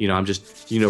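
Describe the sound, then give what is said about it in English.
Hands rubbing together, a soft, dry brushing friction heard mainly in a brief gap between bursts of a man's talk. “That's the sound of me rubbing my hands together because I'm so excited.”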